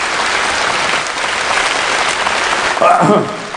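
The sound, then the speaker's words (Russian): Applause from the audience at an anniversary forum, honoring the organizers: dense, steady clapping that holds at an even level throughout, with a brief voice rising over it near the end. “Давайте похлопаем немножко организаторам.”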